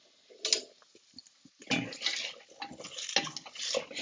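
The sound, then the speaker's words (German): A wooden spoon stirs a barley stew in a pot, making irregular scraping and wet sloshing bursts, several moderately loud strokes separated by brief quieter gaps. “Da kann man auch gleich mal durchrühren hier unten. Schön Holzlöffel.”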